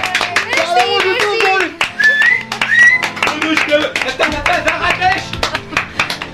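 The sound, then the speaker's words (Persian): An audience applauds a radio presenter introduced as a guest, a patter of hand claps mixed with voices talking over it. “خواهش میکنم به افتخار شراره دست بزنید.”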